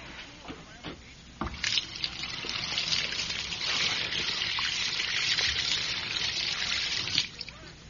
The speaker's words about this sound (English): There's nothing like a nice, free-flowing drain.